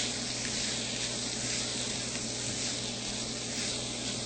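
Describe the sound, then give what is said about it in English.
Potatoes frying in a pan as they are stirred, a steady loud sizzling hiss that holds evenly with no breaks. “And now we can add the potatoes. And stir those around.”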